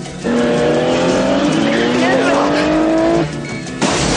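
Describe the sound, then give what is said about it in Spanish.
A car in a 1990 police action film races at full speed toward a large window, its engine roaring under a long, rising tire squeal that cuts off abruptly, with a short lull before the noise returns. “Nick dirige el coche a toda velocidad hacia el ventanal.”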